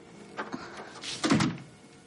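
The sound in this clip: A door closes quietly in a thriller film scene: a faint click followed by a soft, muffled thud, both low in level.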